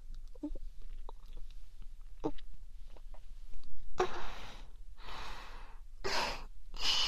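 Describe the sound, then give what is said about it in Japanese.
Someone drinking: small wet gulps and swallows, then several loud, breathy exhales or gasps in short bursts. “では、今から飲みますね。”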